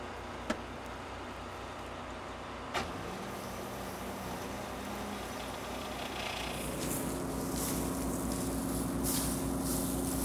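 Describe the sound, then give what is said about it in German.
A combine harvester runs its mechanism in reverse after something jams inside it, giving a steady low mechanical drone with broad rattling noise. Two brief knocks come early, and the noise grows louder and harsher for the final few seconds. “Wartet mal, ich reversiere mal.”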